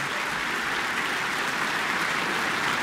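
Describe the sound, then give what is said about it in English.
A big audience ovation for a young orchestra conductor at a concert: thick, unbroken applause from a large crowd, even and loud across the whole stretch, like a continuous wash of hand claps. “He spun around the podium and received a big ovation from the audience and now has the orchestra on their feet.”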